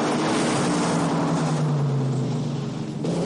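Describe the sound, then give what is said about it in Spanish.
Car engine of the criminals' getaway car pulling ahead during a film car chase: a loud, steady roar with a low droning hum that holds throughout and eases slightly near the end. “El coche de los criminales avanza con ventaja por una caja.”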